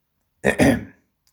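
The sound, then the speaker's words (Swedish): A person clears their throat in one short, two-part rasp: a brief catch, then a longer, rougher push that fades. The sound stands alone with silence on either side. “och ruskade på sig och harklade sig igen”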